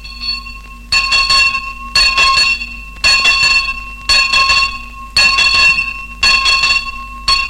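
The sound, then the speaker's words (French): A school bell rings in repeated bursts about once a second, each burst bright, metallic and loud, with a steady ringing tone sustained between strokes and no voices. “Vous la reconnaissez à présent, la cloche, celle qui réglait votre vie.”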